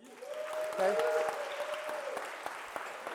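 Audience applause for a child volunteer swells quickly into steady clapping with a brief cheer near the start, then continues at a fairly even level and eases off slightly.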